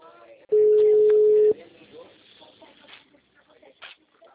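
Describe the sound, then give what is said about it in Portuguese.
A single steady telephone tone sounds loud and level for about a second during an outgoing call. Faint, low voices and background sounds follow. “Tá ocupado, então.”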